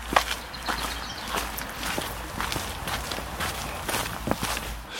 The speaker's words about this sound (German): wir laufen hier durch den Garten